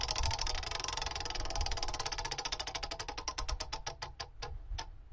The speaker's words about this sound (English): And with that said, let's spin the wheel.